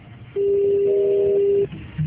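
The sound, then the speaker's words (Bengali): A single steady electronic telephone tone sounds while a call is placed to bring two guests onto the line. It holds at one even pitch for just over a second, then stops, with no voices over it. “আমরা চেষ্টা করছি দুইজনকে ফোনে নেয়ার।”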